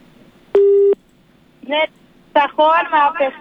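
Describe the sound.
A telephone call being dialled: a single steady electronic line tone lasts about half a second, then people talk.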